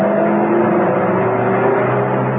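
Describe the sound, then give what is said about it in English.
A large saloon car drives along a dusty open road, its engine a steady, even drone that holds without pause from start to finish, with no voices. “A short way away, a large saloon car was stirring the dust from the open road.”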